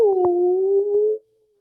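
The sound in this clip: A voice imitates a whale call with one long, low, hooting tone. It is held for just over a second, bends slightly upward, then stops abruptly.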